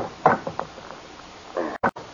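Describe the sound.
A safe is opened: a few dull mechanical clunks and knocks from the door and handle, separated by quieter rattling.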